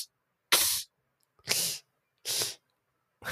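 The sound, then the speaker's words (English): Beatbox inward K sound, made by sharply breathing in: four short, breathy, hissing bursts at an even pace with silence between them, the last one cut off at the end. “You have to say the letter K, but you say it inwards. You breathe inwards.”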